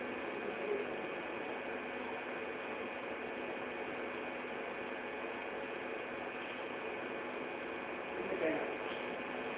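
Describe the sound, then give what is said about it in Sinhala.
An electric fan spinning, giving a steady, even whirring hum with faint humming tones held throughout and a couple of brief, faint bumps near the start and end. “Fan එක කරකිනවා නේද?”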